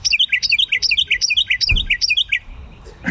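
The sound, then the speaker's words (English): Carolina Wren song: a rapid series of bright, repeated chirping phrases, loud and regular, in an even rolling rhythm that stops shortly before the end. “Well, that's the Carolina Wren, regardless of my predictive abilities were right or not. But some people say it sounds like tea kettle, tea kettle, tea kettle, tea kettle.”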